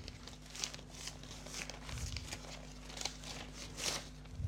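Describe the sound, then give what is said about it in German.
Paper tears and crinkles as an envelope is opened. A fairly quiet series of crisp rips and rustling crackles comes in uneven bursts. “Okay, dann öffne ich diesen Umschlag.”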